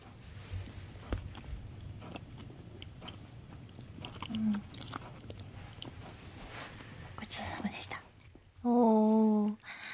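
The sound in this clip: Chocolate being chewed up close: many small, crisp crunching and clicking bites in an irregular stream under soft whispering, then a short, louder voiced tone near the end.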